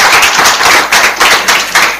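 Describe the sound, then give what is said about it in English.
Audience applause at a quiz competition, loud and continuous, pulsing in a regular rhythm as the crowd claps together, with no voices. “A round of applause for the quiz master.”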